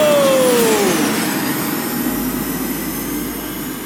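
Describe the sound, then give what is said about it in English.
Hover racer drives engage as racers launch off the line, a jet-like engine roar with a bright whine that drops in pitch over the first second, then settles into a steady, broad rushing hum that slowly fades. “Racers, engage your hover drives. In 3, 2, 1, go!”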